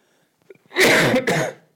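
A harsh cough from a preacher during a sermon comes in two loud bursts, preceded by a few faint small sounds.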